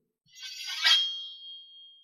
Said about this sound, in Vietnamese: Tiếng kiếm reo ngân vang, Thạch Hạo